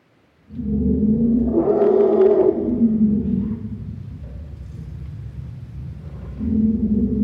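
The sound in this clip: Elephants celebrating a newborn calf give deep, sustained rumbling calls that swell into a louder, rougher roar, ease to a steady low drone, then swell again at the end.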